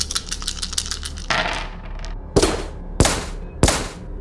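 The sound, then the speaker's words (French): Sound-effect gunfire from a spinning rotary weapon in a sci-fi role-playing game. A rapid rattle of clicks comes first, then three loud, sharp blasts follow in quick succession. “Il fait entrer en rotation sa sorte d'arme et lance un tir dans ta direction. Ouais, t'entends ça.”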